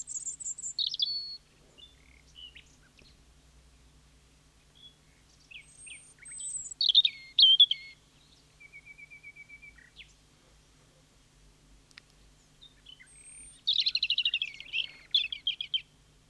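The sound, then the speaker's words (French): European robin song in a garden: several bursts of high, thin warbling phrases separated by quiet pauses, with no talk. “Alors, il est plus discret dans son champ, mais très présent aussi dans nos jardins. On le connaît bien. Oui, le rouge-gorge. C'est le rouge-gorge.”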